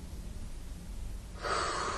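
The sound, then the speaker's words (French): A deep breath drawn in during a guided breathing exercise with arms raised: a soft, airy hiss of inhalation that swells noticeably louder toward the end, with no talking. “Prenons une inspiration. Rétention, tension, nous nous grandissons vers le haut.”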